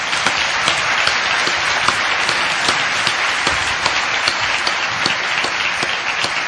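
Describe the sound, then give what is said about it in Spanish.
Audience applause at a conference in Madrid: a steady crackle of many hands clapping, with some sharp individual claps standing out, holding an even level throughout without speech. “Y aquí también quiero mandar un aplauso al doctor Martín Monteverde”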